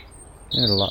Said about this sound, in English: That was piercing. In our last house, we had, is that wee Jenny Wren?